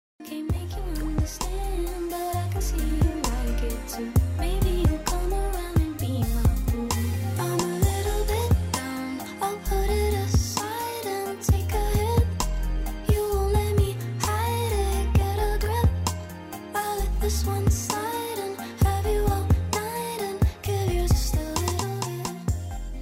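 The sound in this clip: A 1990s-style R&B track with a steady groove of punchy drums and deep bass under a smooth, gliding melodic lead. It plays at an even level throughout with no talk over it.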